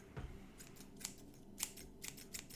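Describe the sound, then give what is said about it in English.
Scissors snip quietly in a quick series of several crisp, short cuts, each one a bright little click. “You gotta cut him, Jeff. Listen, we're gonna cut that poor bastard. Did you hear that? Was that some scissors?”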